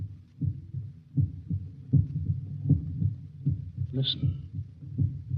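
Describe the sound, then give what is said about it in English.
A human heartbeat pulses in a steady run of low, soft thumps repeating evenly throughout, while a voice briefly speaks over the rhythm. “that sound is the first and last sound in your memory. It is the pulsating of the human heart.”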